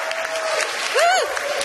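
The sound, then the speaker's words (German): Audience applause at a literary reading-stage event: a short, steady patter of clapping from a crowd, holding at an even level throughout. “Kann man mal Applaus machen?”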